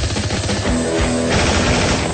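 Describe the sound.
Rapid gunfire from a character dashing into a street in a radio drama: a dense, loud, unbroken barrage of shots with no clear gaps between them.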